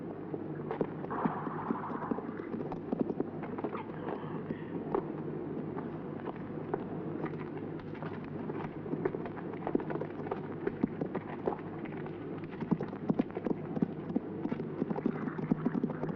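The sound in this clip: Horses' hooves clip-clop steadily as riders stop, many irregular thuds at an even, fairly quiet level throughout with no clear halt.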